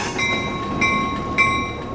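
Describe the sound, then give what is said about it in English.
Freight locomotive hauling steel at a river port, a steady rolling rumble with a high tonal whine and three evenly spaced brighter surges like wheel squeals or clanks. “But for now, this locomotive is hauling the port's mainstay, steel.”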